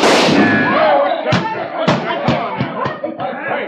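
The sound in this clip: Several sharp gunshot cracks in a frontier Western setting, short, loud pops spaced irregularly among voices talking and murmuring.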